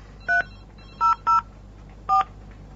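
Telephone keypad tones as a number is dialed: four short, clear beeps at uneven spacing, two close together in the middle, over a low steady hum.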